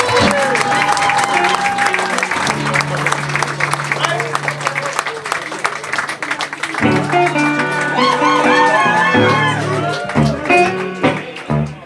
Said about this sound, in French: Sous les applaudissements du public, on laisse la scène à Marco Marti.